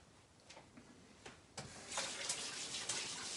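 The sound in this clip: Tap water runs as a sticky As Seen on TV product is rinsed off. The flow is faint at first, with a few light clicks, then swells into a louder steady stream about halfway through.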